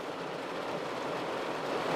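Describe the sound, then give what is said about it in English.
Heavy rain pours down in a steady, dense hiss that never breaks or changes, fairly faint throughout. “It's still pouring down rain. Pouring.”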